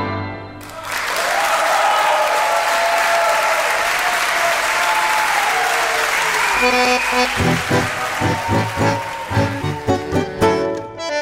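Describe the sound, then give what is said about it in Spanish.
Audience applause after a sung performance of a song: dense, loud clapping starts about a second in and holds steady, turning more uneven and pulsing toward the end. “Aplaudan, aplaudan, aplaudan esa interpretación”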